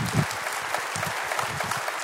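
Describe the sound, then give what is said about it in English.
Church audience applauding to welcome a speaker in the morning: steady, even clapping throughout, with no clear break or peak. “So would you put your hands together and welcome Dr. Les Parrott as he comes to speak to us this morning.”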